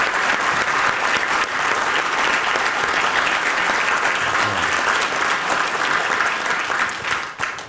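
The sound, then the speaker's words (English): Sustained audience applause at a live talk as a guest is thanked before the Q&A session. Dense, loud clapping holds steady for several seconds, then thins and fades near the end. “Can we give it up for Robert Louis Brandon Edwards one time?”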